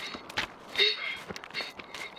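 Children's running footsteps patter quickly and lightly, a fast, irregular string of soft steps heard at low volume.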